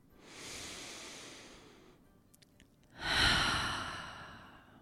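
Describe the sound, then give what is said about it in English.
A single deep breath: a slow, airy inhale swells and fades, then after a short pause a louder, breathy exhale follows. There is no talk. “I want to just take a moment and take a really deep breath, and maybe you would like to join me and do the same.”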